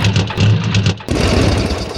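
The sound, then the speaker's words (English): A custom motorcycle engine idles with a low, throbbing pulse, then abruptly shifts to a rougher, brighter rumble partway through. The sound stays loud throughout. “Asphalt rolling under the wheels of your new custom bike.”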